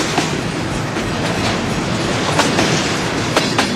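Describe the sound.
Freight train rolling past on rails: a loud, continuous rumble and rush with a steady, rhythmic clickety-clack of wheels over rail joints throughout.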